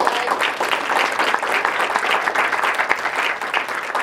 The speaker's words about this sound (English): So I would like to welcome a very warm applause